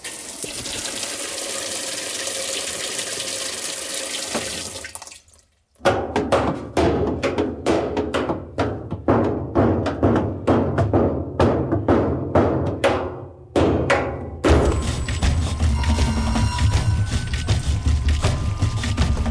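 A washing machine with a sheet-metal body runs. Water rushes in steadily, then a long run of many sharp knocking thunks follows, and a dense rushing of water resumes at the end.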